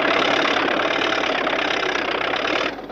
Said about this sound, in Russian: Она нажимает на педаль. Трактор резко срывается с места